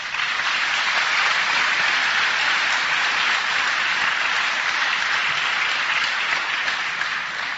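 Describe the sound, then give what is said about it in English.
Sustained applause from a crowd fills the whole stretch, a dense, even roar of many hands clapping at steady loudness without a break. “it should be me applauding you.”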